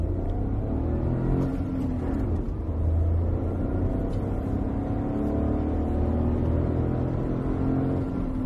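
Steady engine drone of a small 900 cc three-cylinder turbo petrol car, rated 66 kW and 135 Nm, driving on the highveld. A continuous low rumble holds throughout with no pauses.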